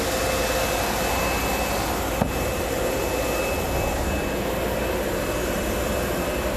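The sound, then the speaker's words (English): A machine that seals foam cushion pieces for dinette and sofa covers in plastic runs with a steady, even whirring hum and a faint high tone, broken by one brief click partway through. “So if you've ever wondered how we get the covers on the foam pieces on the dinettes or on the sofas, this is the machine that shows us how to do it.”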